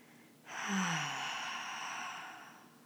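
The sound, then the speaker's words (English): A long, slow exhale through the mouth that starts abruptly with a faint voiced edge dropping in pitch, then trails off gradually as a quiet breathy rush over about two seconds, heard alone. “And a long, slow, deep breath out through the mouth, extending that exhale.”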